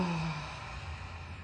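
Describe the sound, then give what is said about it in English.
A single full exhale out of the mouth during a guided breathing exercise: a soft, breathy rush of air that slowly fades, heard alone. “Inhale through your nose. Full exhale out of your mouth.”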